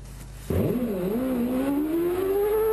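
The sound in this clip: Trabant car engine in a slalom race in Zagreb, bursting in abruptly and revving loudly, its pitch dipping briefly and then climbing steadily as it accelerates, with no voices.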